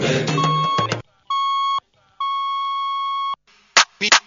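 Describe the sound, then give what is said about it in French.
A classic telephone ringback beep: two long, steady electronic tones with a clear pause between them, the second much longer. A brief burst of other sound comes before them, and a few short, sharp bursts follow. “fini le bip classique”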